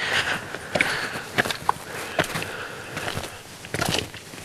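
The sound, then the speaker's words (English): Footsteps sound as people walk along a park trail, a steady series of many crunching steps, fairly loud and irregularly spaced. “All right, so not much to talk about right now other than we're walking.”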